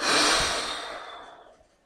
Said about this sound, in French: Puis tu vas souffler fort avec la bouche, c'est-à-dire que tu vas souffler comme ceci.